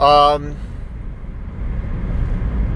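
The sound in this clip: Interior of a car while driving: a steady low road rumble and engine drone, with a person talking briefly at the start before the cabin noise carries on alone.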